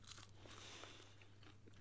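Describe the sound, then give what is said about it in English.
Crunch of biting into a TGI Friday fry: faint, crisp crackling bursts over a steady low hum, with no talk. “That was a very satisfying crunch it made, actually.”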